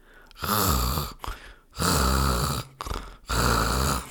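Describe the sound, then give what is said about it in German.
Snoring during sleep: three long, loud, rasping breaths at an even pace, with shorter, quieter intakes of breath between them. “Aber da ist der Theobald eingeschlafen und der Dodo ist auch gerade abgelegen und hat angefangen zu kröseln.”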